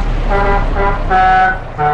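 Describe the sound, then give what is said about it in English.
A custom-designed, climate-controlled motor coach the size of a bus honks as it pulls up. A few loud, steady horn blasts sound over a low engine rumble. “A coach the size of a bus pulls up.”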